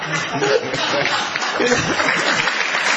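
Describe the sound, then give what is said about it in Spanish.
An audience applauds a candy seller, a steady patter of clapping that runs the full length at an even level while a man talks over it. “La gente le aplaude al caramelero.”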